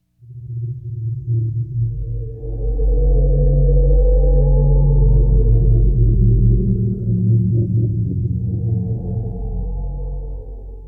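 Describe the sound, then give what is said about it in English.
A musical evocation of an underwater ocean environment, with deep, rumbling drones and layered low tones that swell in from silence and hold steady, then thin slightly toward the end. “So we'll start with, this is the sound of the environment of the water.”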